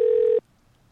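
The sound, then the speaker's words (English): Ringback tone of a telephone call to a payphone, one steady mid-pitched electronic tone lasting under half a second before cutting off into near silence. “Would you pick up a payphone ringing? I might.”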